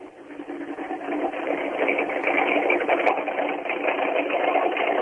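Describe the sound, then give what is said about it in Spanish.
A Ford Mustang race car engine runs at idle after being started, with a steady, rough, loud drone that holds even throughout without any revving. “Primer motor encendido en este momento, a la hora del programa, es el del Mustang de Craparo, con viborita colocada.”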